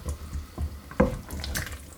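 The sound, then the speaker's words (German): Water poured into a cooking pot of potato and pumpkin goulash: a short, splashy pouring with a few uneven bursts, fairly soft, and no voices. “So, dann noch ein bisschen Wasser dazu.”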